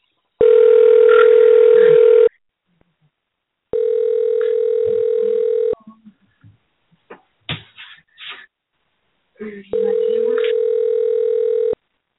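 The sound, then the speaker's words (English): A telephone call rings out with three long, steady ringback tones separated by pauses, and a voice speaks briefly between the second and third rings. “And we're calling. Then we're calling a number of people.”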